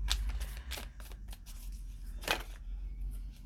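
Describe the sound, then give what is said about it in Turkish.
Tarot cards are drawn during a reading: a run of crisp papery slides and flicks, one sharper snap standing out among them, with no talk over the handling. “Bir de sonuç kartları çekelim bakalım.”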